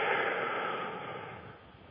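A deep breath drawn in during a guided breathing exercise: one long, airy hiss that starts strong and gradually softens over about two seconds, with no talk.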